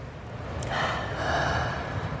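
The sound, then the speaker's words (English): People take a deep breath together: a long, airy intake of breath followed by a slow, breathy release, soft and steady over about two seconds, with no talk. “And let's take a deep breath together.”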